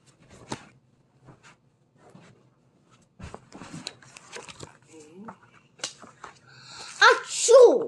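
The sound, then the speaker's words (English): A big, voiced sneeze bursts out loudly at the end, after a stretch of quiet scattered clicks and small shuffling sounds. “It was his biggest sneeze yet.”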